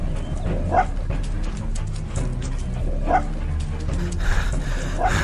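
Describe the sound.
A dog barks and whimpers while following a scent off a main road into a grassy lane. It gives a few short yips spaced apart over steady background noise.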